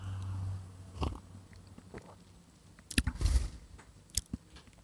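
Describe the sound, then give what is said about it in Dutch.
Someone takes a faint sip of pitch-black coffee with a nice crema layer from a coffee cup: a few soft clicks, then a short, noisy slurp with a couple of quieter ones after it. “ik heb een ja, koffiekopje in mijn hand met een pikzwarte koffie met een, een mooie crema laag. Ik ga even, even proeven.”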